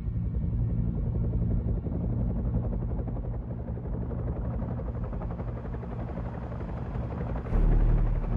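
Loud, steady helicopter rotor and engine drone that runs continuously, a deep throbbing rumble with a brief swell in loudness near the end.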